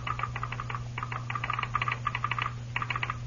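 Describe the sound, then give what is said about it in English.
A telegraph sounder clicks in a telegraph office, tapping out rapid clusters of sharp clicks in irregular groups with short pauses between them, over a steady low hum. “Hawkins sat at the desk in the telegraph office. The Lone Ranger, standing next to him, interpreted the click that came from the sounder.”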